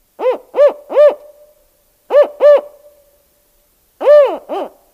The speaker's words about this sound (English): That was the sound of the spotted owl, and that's the main subject of our talk today.